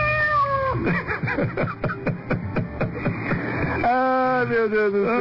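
A cat meowing sound effect: a drawn-out meow at the start and a longer, wavering meow at the end, separated by a quick run of rhythmic pulsing sounds at an even level.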